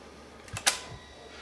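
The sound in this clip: A camcorder's tape mechanism loads a cassette with a short burst of mechanical noise: a soft thump, a sharp click, then a faint final thud, with quiet around them.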